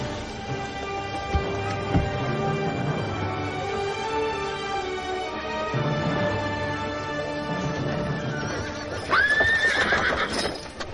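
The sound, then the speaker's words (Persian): Horses of a ten-thousand-strong marching army: steady hoofbeats run throughout beneath a sustained musical drone, and a loud, shrill horse neigh rises near the end. “لشکر 10,000 نفری مهدی علیه السلام به سمت مدینه حرکت کرد.”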